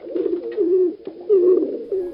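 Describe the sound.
Pigeons coo in low, throaty, rolling phrases that run almost without a break, with a few short dips between calls, at a moderate level and with no voices.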